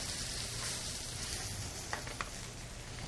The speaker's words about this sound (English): sitting in a cast iron skillet. And I've got that chicken that I just marinated for a little bit. So you got the great smell of the butter melting. And the spices hitting it.